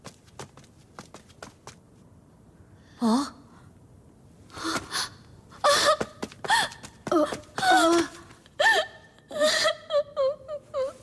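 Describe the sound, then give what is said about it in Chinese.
A woman weeping, the grieving cry of a princess in a palace scene, comes as many sobbing, wailing bursts with wavering pitch after a quiet start, rising louder and more frequent toward the end. “皇姐出什么事了？你为何啼哭啊？”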